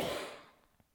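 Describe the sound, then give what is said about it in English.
A soft Ujjayi Pranayama throat breath, drawn against slight resistance in the throat, heard as a single breathy hiss that fades away within a second. “Ujjayi Pranayama, the psychic breath, so making that slight contraction in the throat so that you breathe against a little bit of resistance, creating the soft sound of Ujjayi.”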